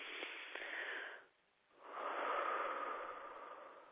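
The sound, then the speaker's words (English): A deep breath taken during a guided relaxation, soft and airy: a long drawn inhale, a short quiet pause, then a longer, fuller exhale that slowly fades. “now let's take a big deep breath and breathe that white light down into the gut”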